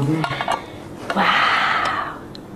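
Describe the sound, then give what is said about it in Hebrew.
A spoon striking a yellow cup while a child plays, a few light, sharp taps at uneven intervals, with a louder stretch of sustained noise between them. “זה כף וספל? את מכה?”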